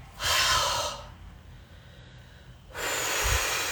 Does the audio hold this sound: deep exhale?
yes